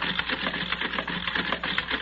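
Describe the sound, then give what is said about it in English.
A card-sorting machine running, giving a steady, rapid mechanical clatter and whir with an even rhythmic pulse and no voices, holding at moderate loudness throughout. “All right, I'll set it in the machine. There. The cards for all the men are already in place. Good. Now we'll set the machine running.”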